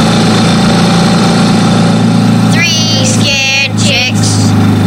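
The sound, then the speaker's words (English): A loud ATV engine runs in a steady, unbroken low drone for the whole clip, with brief higher-pitched sounds over it in the middle. “But as harmless as that little old lady was, her ATV was loud.”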